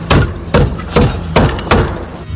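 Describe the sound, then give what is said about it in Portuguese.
Hammer blows on wooden boards at a construction site: five dull, solid thuds at a steady, unhurried pace, each strike loud with a deep, low thump. “Ali tem madeira da Cremac, o povo tá batendo martelo mesmo.”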